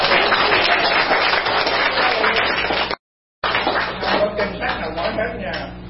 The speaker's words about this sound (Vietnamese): Vỗ tay cho ông già đó, anh đồ.